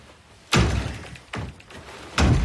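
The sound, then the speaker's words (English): Three heavy, evenly spaced thuds come from a closet door being kicked from inside. Each loud blow rings briefly and then dies down before the next. “He kicks at the door inside.”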